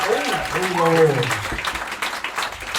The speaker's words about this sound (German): Jetzt euer Applaus für die 100.000 Euro Frage.